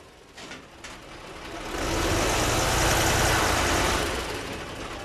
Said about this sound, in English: That is the sound of armored personnel carriers, tanks, and other military equipment being put on trucks in Afghanistan.